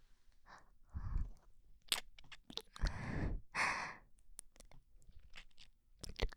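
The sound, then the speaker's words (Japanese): Lips massaging the outer ear during an ASMR session produce soft, moist mouth sounds: irregular breathy rustles, gentle smacks, and small crisp clicks in separate bursts that swell and fade, close and quiet, with no speech. “まずはお耳の外側を唇でマッサージさせていただきます。”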